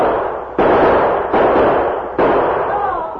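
Gunshots ring out as sound effects in an old-time radio western drama, fired by outlaws from a gully: a few sharp, loud bangs, each followed by a lingering noisy decay, with no voices over them.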